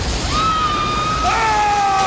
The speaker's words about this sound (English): Water gushes through a ceiling, then towards an ant with a baby.